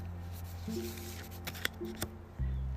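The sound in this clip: A deck of cards is shuffled and one card pulled: soft, crisp riffling with a few snappy flicks, fairly faint, over a low steady tonal drone.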